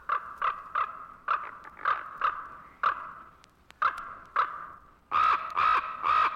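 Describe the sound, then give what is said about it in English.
Ravens give many harsh, croaking caws in short bursts, some spaced and some in quick runs, ending with a louder cluster of calls. “ravens can make all sorts of noises. Listen to this.”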